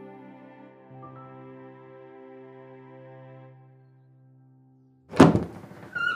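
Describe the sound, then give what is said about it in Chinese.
A wooden door thunks open at the back room of Fuling Temple, closed for three days. A heavy knock follows a soft, sustained musical drone, and a second lighter knock comes shortly after. “与此同时，紧闭了三日的福灵寺后厢房终于打开了门。”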